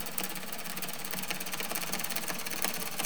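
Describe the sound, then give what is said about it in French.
Underwater noise of dense boat traffic in the Lorient roadstead, picked up by a submerged microphone: a continuous engine and propeller hum with a rapid, regular ticking pulse running steadily throughout. “Impossible en journée d'entendre d'autres sons que celui des bateaux. Dans la Rade de Lorient, le trafic maritime est tellement dense qu'il écrase tous les autres sons.”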